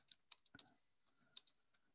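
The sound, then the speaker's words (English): Typing on a computer keyboard: a few faint, sharp keystroke clicks scattered irregularly across a quiet background, with short gaps between them. “Let's learn to type.”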